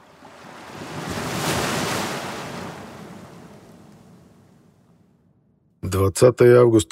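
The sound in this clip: Open Pacific Ocean waves and wind at sea, heard as a broad wash of surf noise. It swells to a peak, then slowly fades to near silence before someone begins speaking.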